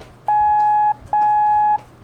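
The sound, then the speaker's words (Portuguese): Morse code letter M sounded as two long, steady mid-pitched beeps of equal length, separated by a short silent gap, loud and clean with no other sound. “A letra M de Mike tem dois sons longos.”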